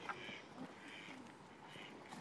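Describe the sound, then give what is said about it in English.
Quacking from male ducks while one chases another: a few raspy, nasal calls over steady, continuous background noise. “One male duck chasing another male duck.”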